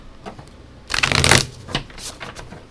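Playing cards are shuffled and drawn. A soft rustle leads into one loud, crisp riffle burst, followed by a few lighter snaps and slides of cards.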